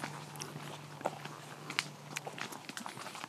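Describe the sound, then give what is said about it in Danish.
A plum being eaten, with quiet, wet bites and chewing clicks scattered irregularly over a faint low hum. “jeg snupper lige en blomme til, mens du taler mm. videre”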